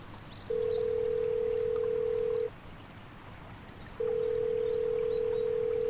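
Steady electronic telephone tone while a call is placed, two long pulses with a pause between them, sounding over a faint background hiss.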